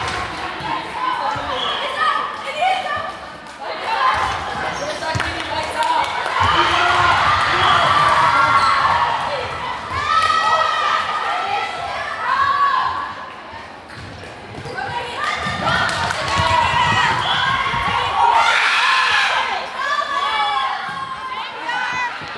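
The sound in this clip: Basketball and volleyball play in a school gym on a hot day: repeated thumps of bouncing balls under constant crowd chatter and shouting voices.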